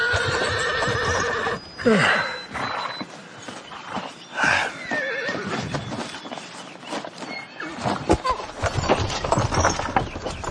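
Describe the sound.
A horse, being held for a hoof check near a blacksmith, gives a couple of loud, shrill whinnies with sweeping pitch, accompanied by hooves clopping and shuffling between calls.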